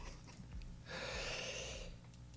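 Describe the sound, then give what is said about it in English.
A big breath drawn with a microphone held to the chest: a single long, hissing, breathy rush of air, lasting about a second over faint low thumping, quiet overall and with no talk over it. “put the microphone up to your chest and take a really big breath”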